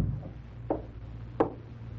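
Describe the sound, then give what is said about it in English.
A door is being closed, heard as two faint, dull thuds spaced well apart over a low background hum. “Your Excellency, do you mind if I close this door?”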